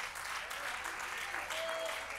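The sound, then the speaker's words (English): An audience claps hands during a church worship service. The clapping is dense, steady and faint, and lasts about two seconds. “Let's clap our hands unto the Lord and magnify him.”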